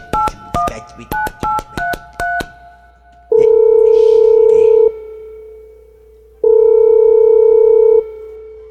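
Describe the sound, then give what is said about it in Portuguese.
Touch-tone dialing on a telephone to call someone back: a quick run of short keypad beeps, then two long, steady ringing tones separated by a gap. “Ei, vou ligar pra ele de novo, vou ligar pra ele de novo aqui, me dando trampa aqui, peraí, vou ligar pra ele aqui.”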